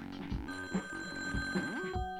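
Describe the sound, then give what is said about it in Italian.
A telephone rings with an incoming call, a faint repeated electronic ring over a soft, sustained tonal background. “La prima telefonata arriva subito.”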